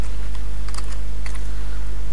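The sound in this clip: Typing on a computer keyboard into a text field produces a few light key clicks over a loud, steady low hum.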